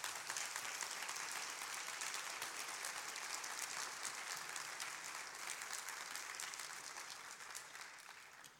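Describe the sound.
A church audience applauds to welcome a speaker during a service. The clapping is dense and steady throughout, then tapers slightly near the end.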